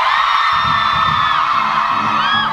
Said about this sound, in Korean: 소리 질러!